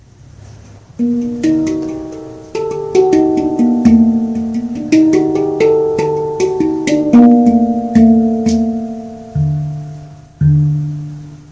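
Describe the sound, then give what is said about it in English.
A hang, a Swiss hand-played steel drum from Bern, rings out a scale: a steady series of resonant, bell-like notes, each struck and left to decay, loud and alone. “It's called a hung, H-A-N-G, which means in Swiss German is the word for hand. So it comes from Bern. So I'll just play you the scale so you can hear the scale.”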